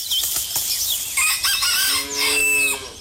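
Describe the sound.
A rooster crows on a farm: a few short, rough squawks lead into a loud, strained, harmonic call that bends and falls in pitch near its end, with no talk.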